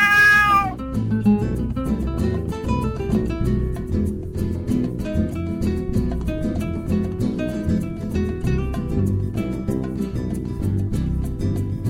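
A single cat meow, short and falling in pitch, sounds at the very start before steady music with plucked notes and percussion takes over.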